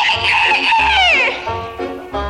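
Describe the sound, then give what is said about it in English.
A voice imitates a rooster crowing in a children's song: a high, sliding crow-like call that falls in pitch, sung over steady musical accompaniment. “Tall red rooster talks this way.”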